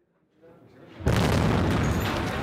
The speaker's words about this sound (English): The entire building is shaken by a powerful blast.